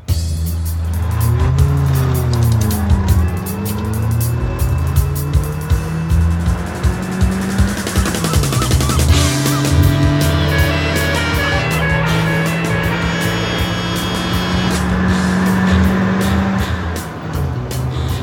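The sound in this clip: A car drives off and accelerates hard. Its loud engine rises in pitch in several surges, with gear changes, and keeps up a sustained throaty roar throughout.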